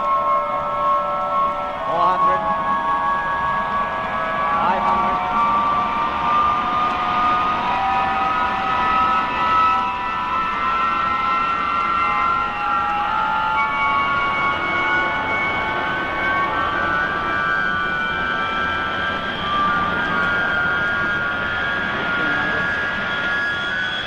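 A motor runs and accelerates, its whining harmonics climbing gradually in pitch over a steady, loud mechanical drone that lasts throughout.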